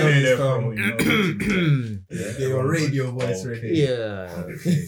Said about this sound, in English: everyone clear their throat